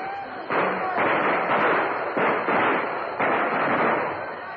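A volley of gunfire from a line of soldiers shooting on command during a battle near a river. Several loud, sharp bursts come in quick succession, each merging into a dense, sustained roar.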